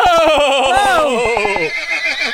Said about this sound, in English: Do you hear that? Like, do you hear that galloping? Is that my prince?